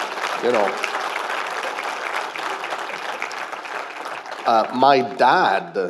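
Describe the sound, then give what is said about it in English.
Applause from a church audience after a Remembrance Day tribute: steady, moderately loud clapping with voices talking through it, and speech growing louder toward the end. “And yeah, give a good hand clap.”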